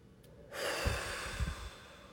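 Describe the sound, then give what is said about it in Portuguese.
Deep breathing in and out during a guided energy-clearing exercise: a long, airy rush of breath with a few low, snort-like pulses in the middle, with no talking. “Inspira e solta.”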